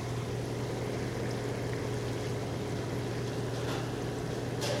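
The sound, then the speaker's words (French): French fries bubble and sizzle in hot frying oil at 180 degrees in a friterie fryer, giving a dense, continuous hiss with a low steady hum beneath and no talk. “Et voilà, là ça bouillonne. Nous allons vous faire écouter le deuxième bouillon.”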